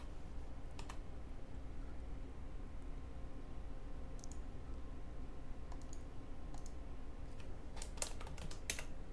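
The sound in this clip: Computer keyboard typing as names are entered into rooms on a map: scattered bursts of sharp clicks, sparse at first and then a quicker cluster near the end, over a steady low background hum.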